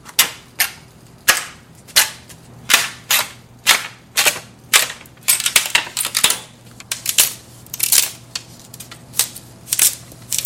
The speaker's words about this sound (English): I split my own bamboo, boom, boom, boom, boom, till the size that's thin enough that I can then trim it.